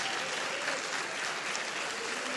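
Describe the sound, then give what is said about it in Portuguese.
An audience claps in worship at a Methodist cathedral, a dense, steady stream of applause that holds at an even level with no voices standing out. “Bata mais forte essa adoração, essas palmas. Oh, elas são para Deus.”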